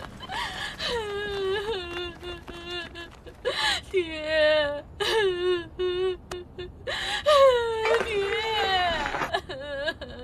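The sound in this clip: A person crying and wailing in several bursts, with a high, wavering voice that slides up and down, breaks into whimpers and catches in gasps between sobs.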